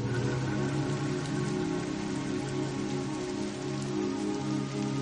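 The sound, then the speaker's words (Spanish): Rain falls steadily in New York City with a continuous, even hiss of drops on surfaces. No voices are heard. “En Nueva York está lloviendo.”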